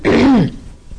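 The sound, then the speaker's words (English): A single throat-clearing cough: a short, harsh voiced burst whose pitch slides downward before fading into quiet. “I am destined to cough. So far, you are not destined to cough. Hopefully, that's my cough destiny for today.”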